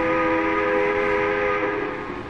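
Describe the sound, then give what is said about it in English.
A whistle sounds as a loud, sustained, steady tone with stacked harmonics over a broad rushing noise, easing slightly in strength toward the end. “The whistle interrupted the argument.”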